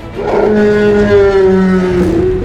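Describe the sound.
A dragon from the video game Tales of Vesperia roars: one loud, sustained, low harmonic bellow that fills the whole clip and sounds much like a deep moo.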